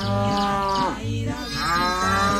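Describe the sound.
Cow mooing, a dairy cow giving an unusually large amount of milk, in a few long, low, drawn-out calls one after another, loud and alone with no voices.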